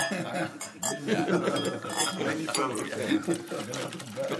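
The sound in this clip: Small drinking glasses clink as they are filled, set beside coffee cups. The busy, continuous chinking of glass is mixed with the splash of liquid being poured.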